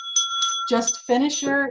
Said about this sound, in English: And when I ring this bell,